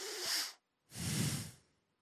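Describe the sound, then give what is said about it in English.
Breathing through the nose straight into a microphone, heard as two separate breaths: a short, hissy one, then after a brief pause a longer, fuller one with more low rumble, both fairly faint and with no talking. “I'm getting a lot of, like, just breathing noise.”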